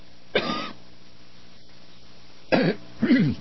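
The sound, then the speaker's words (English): A bad cough: one rough, harsh burst, then a pause, then two more close together. The coughs are fairly loud and heard alone, with no talk. “Excuse me, bad cough.”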